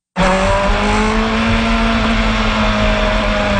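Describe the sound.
Loud IndyCar race car engine drones steadily on a racing circuit at a race in Markham, near Toronto, holding a sustained, high, buzzing tone with little change in pitch for the whole stretch.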